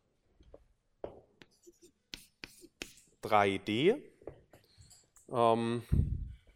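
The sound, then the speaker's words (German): A pen scratches out the Schrödinger equation in short, dry strokes and taps, separated by pauses, while a person speaks quietly between the writing sounds. “Das heißt, wir schreiben zunächst die Schrödinger-Gleichung auf.”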